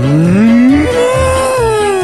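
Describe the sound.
A cow on a dairy farm gives one loud, sustained moo that rises in pitch at the start, then holds steady and tails off slightly, heard alone.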